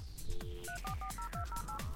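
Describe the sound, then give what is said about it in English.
Touch-tone dialing of an AOL dial-up modem as it connects: a steady low tone gives way to a quick, even run of many bright dual-pitch beeps over a bed of hiss. “2.1 million online users still use AOL dial up.”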